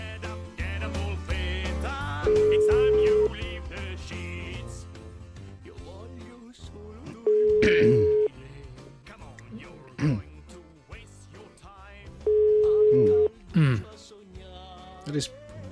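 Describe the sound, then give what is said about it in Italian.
A telephone ringback tone sounds while a call waits for an answer: three steady, mid-pitched beeps, each about a second long and spaced evenly about five seconds apart, under a voice talking over background music. “Dai, su. Un altro squillino, rispondi.”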